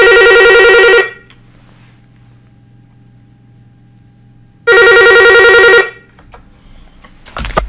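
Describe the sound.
A telephone rings twice for an incoming call, each loud electronic ring lasting about a second. The two rings are separated by a few seconds of low steady hum, and a short burst of noise follows at the very end.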